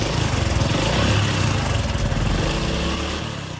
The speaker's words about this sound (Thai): ถ้าทำได้ตามนี้สตาร์ทรถออกไปกันเลย